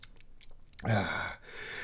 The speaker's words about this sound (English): Ooh, spicy. The bad news is that was the last bite of the last taco.